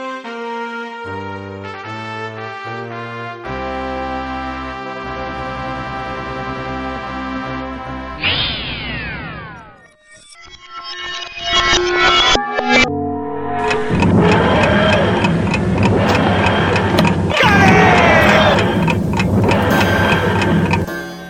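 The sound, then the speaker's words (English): A time machine starting up as a sci-fi effect: a run of stepped electronic tones, then a burst of swooping pitch glides, a brief dip, and a loud, dense rushing roar that builds and holds. “let's fire up the time machine and get back to the wondrous time that was 2003.”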